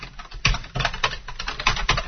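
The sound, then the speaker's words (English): Keyboard typing while a mail server name is entered into an email account setup form: a few sharp, separate keystroke clicks in an uneven rhythm, heard alone with no voices. “I'll type the same thing here and press Tab again.”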